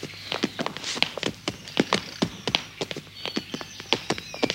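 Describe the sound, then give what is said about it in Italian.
Marching footsteps of a troop led by a lion cub: many crisp, tapping steps in an uneven but steady rhythm, moderately loud, with no voices. “Battaglione, avanti! E il leoncino continuò la marcia in testa alla truppa.”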